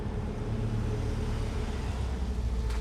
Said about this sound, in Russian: Машина Энди въезжает на подъездную дорожку.